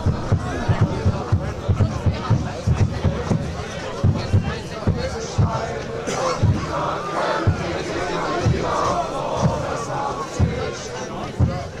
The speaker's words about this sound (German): Ah, die Fans machen das, ja? Ja, ja. Hörst du es, wie die Stimmung machen? Ja. Die machen viel Musik hier. Fans.